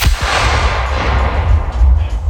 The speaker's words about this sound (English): I was building out a cannon for a guy. This is it.